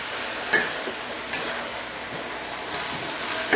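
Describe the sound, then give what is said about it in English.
Tofu mixture sizzles in a frying pan as it is stirred, a steady frying hiss broken by a few light scrapes and clicks. “And now we're going to add the tofu mixture. That's gorgeous. To the fry pan. Wow. And stir it until it is well blended.”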